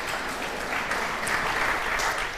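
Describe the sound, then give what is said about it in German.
Audience applause fills the whole stretch, a continuous wash of many hands clapping at an even level that swells slightly in the middle, with no speech over it. “Gebt ruhig Applaus.”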